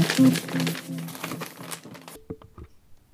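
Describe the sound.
A page of paper being turned: a short crinkly rustle and a few soft clicks, following a stretch of voice.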